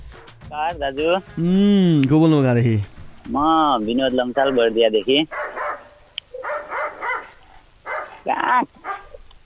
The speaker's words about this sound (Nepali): कुकुर कराइरहेको नि ए त्यो कुकुर पालेको छ नि त्यही अब कराइरह होला नि